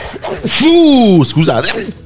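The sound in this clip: A man sneezes once, loudly and with a strong voiced, arching tone, his nose running from the damp night air.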